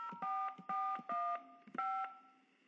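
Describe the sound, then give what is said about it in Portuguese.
Telephone keypad tones entering an HSBC bank account password on a phone banking line: several short, bright two-tone beeps in an even rhythm, with no talk over them. “Acessar com a senha da conta, tecle 6. Digite a senha do meu HSBC, telefone.”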